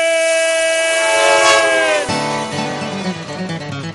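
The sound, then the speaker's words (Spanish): A train whistle gives a loud, sustained harmonic blast that fades out after about two seconds. Shorter tones with shifting pitch follow it. “¡Pasajeros al tren!”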